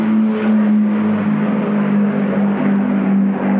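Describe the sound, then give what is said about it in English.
A World War II Lancaster bomber flying overhead produces a loud, continuous droning rumble with a steady low tonal hum that holds evenly for the whole stretch. “A Lancaster, man. That's like the World War II.”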